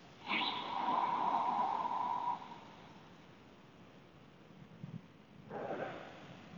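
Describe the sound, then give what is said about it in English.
Deep diaphragm breathing during a relaxation exercise: a long, airy breath of about two seconds, a quiet pause, then the soft start of another breath. No speech. “just engage three of these beautiful, deep pranic breaths.”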